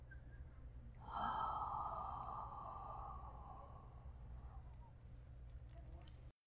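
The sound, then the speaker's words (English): A deep, slow breath is taken during a guided breathing exercise. It is soft, long and steady, with a faint low hum underneath. “Deep, slow inhale. Long, slow exhale.”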